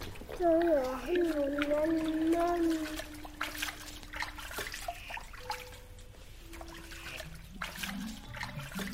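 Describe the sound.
Water trickles and splashes as a 2.5-year-old child is washed in a white plastic baby bath, with voices talking over the small intermittent splashes.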